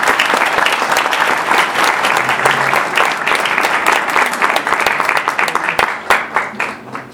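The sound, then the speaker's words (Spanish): Audience applause for panel participants at a radio history event comes as loud, dense clapping. It holds steady, then thins into more separate claps near the end. “Un aplauso, por favor, para ellos.”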